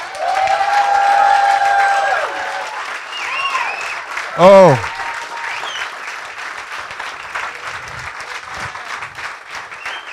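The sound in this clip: A church audience applauding and cheering, with steady, dense clapping and whoops throughout and one loud shout rising above the crowd midway.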